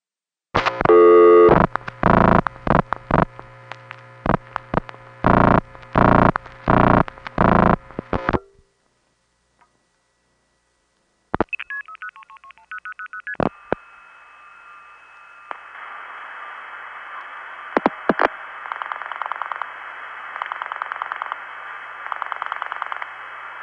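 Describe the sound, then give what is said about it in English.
A long-distance telephone call to Alberta routed through crossbar tandem switches: a fast run of clipped signalling tone bursts, a silent pause, a few short tones, then a long steady tone over hiss. “Here now are two calls to Alberta which take the following route.”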